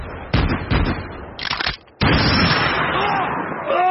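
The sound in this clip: Gunfire crackles in several sharp bursts with brief gaps, then breaks into a sustained, loud roar of shots. The rounds come from one shooter among three.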